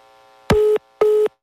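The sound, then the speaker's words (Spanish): A telephone busy tone after a call cuts off, sounding as two identical steady beeps of moderate pitch separated by a short silence. “Se cortó la llamada con mi compañera Laura Beitia.”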